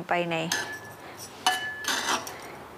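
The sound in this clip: Salt-soaked, squeezed-out purple eggplant goes into a prepared glass jar with a few light clinks and knocks against the glass, after a short bit of voice at the start.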